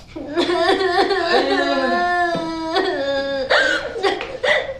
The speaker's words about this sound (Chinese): 你怎么哭了呀？怎么了？